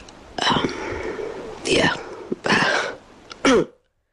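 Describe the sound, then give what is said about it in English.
A few forced, exaggerated coughs from someone who is ill, raspy bursts separated by short pauses, the last one short and sharp before silence. “You're really forcing the cough out there.”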